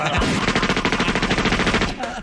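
Gunfire sound effect linked to a drawn pistol: a dense, rapid rattle of shots runs steadily for about two seconds, loud throughout.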